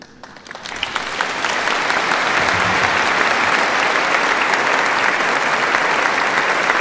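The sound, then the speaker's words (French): Applause from an audience greeting the pope at a prayer service, starting quietly and quickly swelling into dense, steady clapping that continues loudly and evenly to the end. “Monseigneur Ballot, archevêque, évêque de Metz, qui maintenant va donner l'accolade au pape Léon XIV sous les applaudissements”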